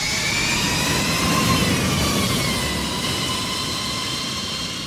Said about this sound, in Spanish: Y este el sonido de una moto eléctrica.